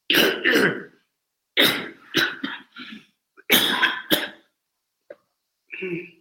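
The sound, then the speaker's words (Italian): Harsh coughs and throat clearing as a speaker loosens phlegm during a Bible talk. They come as a series of short, rough bursts separated by brief pauses. “Scusate, si stacca un po' il catarro, mi dà.”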